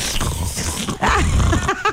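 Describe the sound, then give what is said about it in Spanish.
A hungry stomach growls in a gurgling, churning rumble with a few squeaky, sweeping tones, moderately loud and alone without talk. “Esa fue mi tripa. La tripa.”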